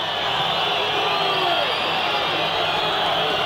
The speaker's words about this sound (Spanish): Se van con esa silbatina de todo el público de Gimnasia, que no le perdona el haber querido ir a increpar, a agredir a Perales.